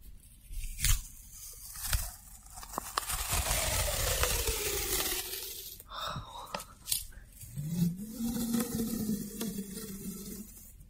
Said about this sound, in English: And our next trigger is tape. I've always loved the way tape sounds ever since I was little.